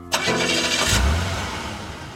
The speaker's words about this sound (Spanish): El camión se pone en marcha